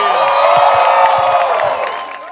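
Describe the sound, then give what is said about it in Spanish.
A live audience at a Sunday music show breaks into loud applause and cheering, with whoops over dense clapping that holds steady and then fades near the end. “Un aplauso, muchachos.”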